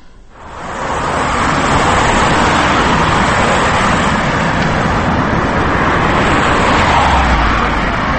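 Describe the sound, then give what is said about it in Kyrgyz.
Car traffic on a busy Moscow street: a dense, steady roar of engines and tyres swells in the first second, then holds loud and level throughout. “Москванын мындай жык 20 көчөсүндө 20 жыл мурун машина айдаган аялды көрүү дээрлик жок болчу. Азыр болсо зуулдаган ар бир экинчи машинени аял тээп баратканына күбө болосуз.”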